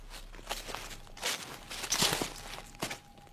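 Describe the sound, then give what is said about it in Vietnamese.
Footsteps rustle through a garden at night, just behind a window. The shuffling steps are soft and irregular, with a few louder rustles rising above a faint steady background. “Bất giác, ông nghe có tiếng bước chân loạt soạt như có cái gì đó đang đi lại.”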